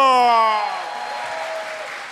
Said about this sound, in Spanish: ¡Aplauso al número 1!